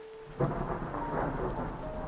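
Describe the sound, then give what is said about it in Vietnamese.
Heavy rain pours down in a storm as a dense, steady roar, with a low rumble of thunder swelling near the start and continuing under the downpour. “bỗng dưng trời mưa ngày thêm nặng hạt, trút xuống ào ào như thác đổ, làm cho không gian mờ mịt hẳn đi.”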